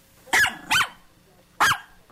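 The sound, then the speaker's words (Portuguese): A person imitates a puppy's yapping with three short, high, strained yips, two close together and a third after a pause, with near silence between. “Parecido com o gatinho, o cachorrinho”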